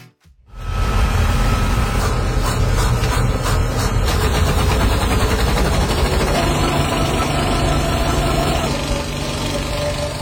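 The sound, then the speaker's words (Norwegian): Film reel projector running during a cinema screening in the USA, a loud, continuous mechanical whirring and rattling that starts abruptly after a brief quiet moment and holds steady throughout. “du vet hva en filmrulle er. Rundt ting med sånn bånd som går inn. Så lager de også veldig mye lyd. Bare hør her.”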